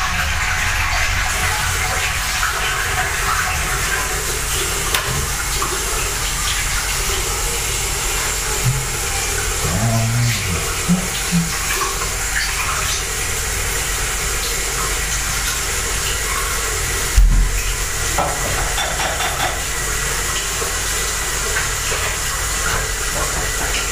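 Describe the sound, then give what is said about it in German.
Running water as something is washed beneath it: a steady, dense hissing rush that holds throughout, with a few faint knocks and one louder thud late on. “So, mal waschen.”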